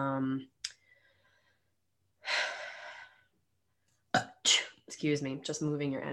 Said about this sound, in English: You can hear her shuffling it in the background.